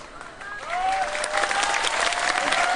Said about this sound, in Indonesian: Padahal sing tepuk tangan ini ra dikai apa-apa, ora gelem nyoblos.